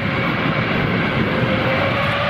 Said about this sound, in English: It's the sound of an A380.